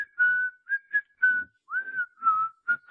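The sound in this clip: Whistled melody from a film score, carried in a series of bright, clear phrases of held and sliding notes with short gaps between them, heard alone without talk.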